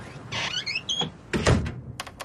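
An old, unoiled door creaks open with a short, high squeal, followed by a heavier thud and a couple of faint knocks.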